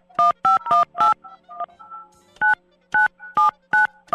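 Touch-tone keypad beeps as a telephone number is dialed: a quick run of short, crisp tones, then a pause and a second burst of evenly spaced beeps, all clear against near silence.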